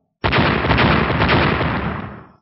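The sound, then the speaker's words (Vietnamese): A series of explosions as golden blades slash apart black lightning snakes, heard as one loud, dense roaring burst that holds steady for about two seconds before fading away. “Những tiếng nổ liên tiếp truyền ra”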